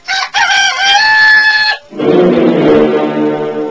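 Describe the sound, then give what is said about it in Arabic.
A rooster crows in one long, loud, bright call with a strained, wavering pitch. After a brief dip it is followed by a lower, denser sound that continues to the end. “بلغني أيها الأعزاء أنه من فوق سور الإسكندرية أطل الديك المشهور وهو يزهو ويصيح بكل سرور.”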